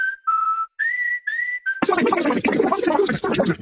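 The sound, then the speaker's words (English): An advertisement played back at very high speed, opening with a run of high, chirping whistle-like tones and then turning into a dense, rapid squealing jumble of sped-up sound. “Hey, that sound you just heard was this ad at Superloop speed.”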